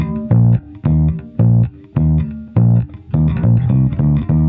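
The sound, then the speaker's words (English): Two-beat bass line played on bass in the pre-bebop jazz style, with many loud, deep plucked notes in a steady, bouncing pattern of separated attacks and short gaps, heard alone. “Everyone was playing a two-beat on the bass before that, and that sounds like this.”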